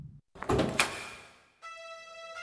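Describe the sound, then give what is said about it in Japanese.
A door is opened with a loud clattering burst that fades over about a second, followed by a sustained tonal drone. “私は思わずドアを開け外に飛び出した。”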